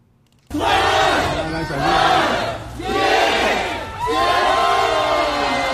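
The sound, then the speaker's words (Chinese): A crowd of residents cheering and chanting a countdown at midnight as their residential compound gate opens at the end of a lockdown, in heavy rain: loud massed shouting in about four surging waves. “零点整，在小区门内冒着大雨等待了许久的居民们欢呼着倒计时，小区大门打开，欢笑的人群涌了出来。”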